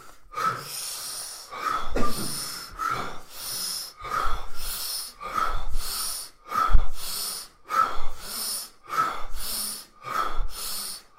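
Deep breathing during a breathing exercise, with a full inhale followed by a small puff out. The breath cycle repeats many times in a steady rhythm, with loud, airy, wheezy breaths heard alone.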